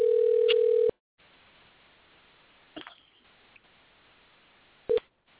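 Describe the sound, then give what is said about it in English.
An outgoing telephone call rings with a steady electronic tone lasting about a second. A low line hiss with a few faint clicks follows, then one more brief tone burst near the end, with no voices. “I'm stuck. Here we go. We're trying to call him.”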